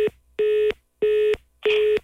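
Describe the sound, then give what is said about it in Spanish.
Telephone line tone after the caller hung up: four steady, evenly spaced electronic beeps in a regular on-off rhythm, with no voices. “Loki ya colgó y dijo que ya no te va a contestar ninguna llamada”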